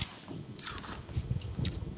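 Faint, wet chewing of a small piece of charred roasted lamb: soft squishy bites and mouth noises repeating at an irregular pace.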